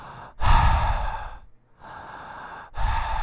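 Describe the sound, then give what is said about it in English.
A voice imitates a man's deep, heavy breathing inside a restroom stall. Three raspy, noisy breaths are separated by short pauses, and the middle breath is softer than the other two. “He didn't hear anything, but he heard like a deep like breathing noise.”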